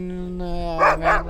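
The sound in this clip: Barking from Iditarod sled dogs at the ceremonial start: two sharp, noisy bursts rise over a steady low hum while a man talks.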